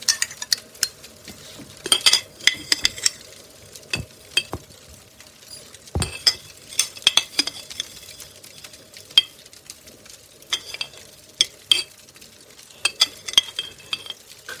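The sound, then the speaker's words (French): Instant coffee is whisked vigorously with very hot water, producing many rapid metallic clinks and scraping strokes in an uneven rhythm, loud and sharp with brief pauses between bursts. “Ok, étape 1, fouetter vigoureusement le café soluble.”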